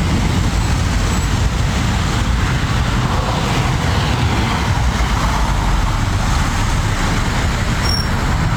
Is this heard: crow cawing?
no